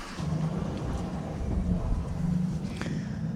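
Low, droning rumble of a timber truck engine hauling a 52,120 kg load of logs to the factory, steady and heavy with no clear breaks.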